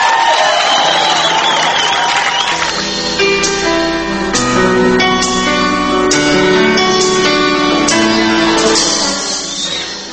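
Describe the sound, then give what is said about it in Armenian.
Crowd cheering and whooping as a contestant is introduced at a talent contest final. A dense, loud roar holds steady for about ten seconds, with high tonal whoops rising out of it. “զինվեք ծափահարություններով, նա գալիս է 13-րդ համար, Ռաֆի Օհանյան, Սիրիա։”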